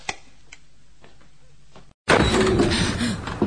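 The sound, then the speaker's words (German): A gate slams shut on its own: a sudden loud, harsh crash breaks in after a stretch of near silence and its noisy roar carries on to the end. “Die Pforte ist zugefallen. Ja. Von selbst. Unmöglich. Jemand muss sie geschlossen haben.”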